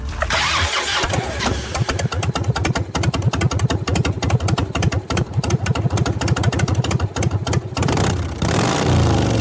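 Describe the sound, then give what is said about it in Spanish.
A Harley-Davidson motorcycle engine fires up and runs with a deep, rapid, pulsing beat, loud and rough throughout. The beat gives way to a steadier roar near the end. “Un harlista muy cercano nos decía alguna vez que este sonido es mágico, terapéutico, y que cuando brota de un motor propio equivale, bueno, a los latidos del corazón de un hijo.”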